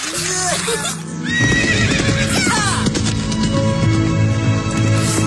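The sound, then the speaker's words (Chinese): A horse whinnies loudly at the start, a quavering call that falls in pitch, followed by a dense, busy mix of other sound and voices. “哇，这马真帅，比我还高哎。”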